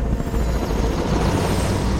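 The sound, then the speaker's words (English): A helicopter heading for an old wooden barn gives off a steady, fairly loud low thudding rumble with a broad rushing wash, unbroken and even throughout. “A chopper heads for the barn as Logan slumps down, still holding Travis.”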